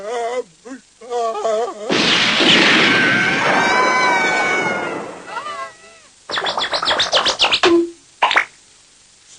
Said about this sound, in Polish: Usłyszałem strzał.